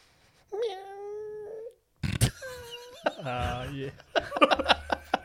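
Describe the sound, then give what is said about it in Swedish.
A person imitates a cat with a long, drawn-out meow, then adds further wailing, cat-like yowls and vocal noises in irregular bursts. “Ja, det var en katt. Ja, en katt.”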